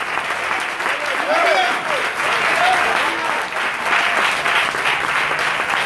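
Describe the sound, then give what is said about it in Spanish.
A church audience applauds with joy in a steady, sustained wash of clapping that runs the whole length, with a voice rising over the applause. “Si te aplaude, aplaude con alegría.”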